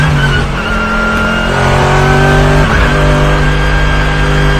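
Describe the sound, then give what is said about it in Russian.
Race car engines roar at the Nürburgring 24-hour race as a Mercedes GT tries to overtake a Renault Logan: a loud, continuous, buzzy engine drone whose pitch shifts and wavers as the cars run close together. “этот Логан, на Нюрбургринге 24 часа. Это 24-часовая гонка была. Вот GT. Мерседес GT пытается его обогнать.”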